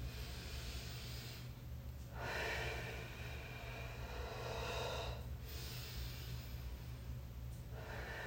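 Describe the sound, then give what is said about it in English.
Slow, deep breaths taken by a person relaxing in a bath: a few long, airy inhales and exhales in a steady rhythm, soft and breathy over a faint low hum. “I'm going to take a few deep breaths to seal the deal.”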